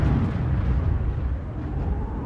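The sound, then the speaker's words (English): Thunder from a lightning blast, a loud, deep rumble that rolls on without a break for the whole stretch, heavy in the low end and heard alone. “We almost made it to the main road leaving town when the first lightning blast erupted in the sky.”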